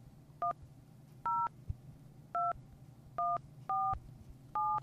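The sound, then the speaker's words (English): A telephone keypad sounds as a number is dialed, starting with a caller-ID blocking code and an area code. Six short, clear two-tone beeps come at uneven intervals over a low background hum. “So here, we're going to dial a number.”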